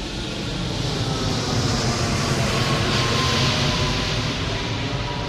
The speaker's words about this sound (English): Okay, here comes a Scoot Boeing 787 Dreamliner.